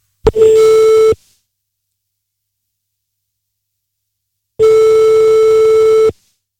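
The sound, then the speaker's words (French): A telephone line tone sounds after a number is redialed: a sharp click, then a steady mid-pitched tone of under a second, about three seconds of silence, and a second, longer identical tone, both loud and clean. “On y va, on recompose le numéro de téléphone. On rappelle.”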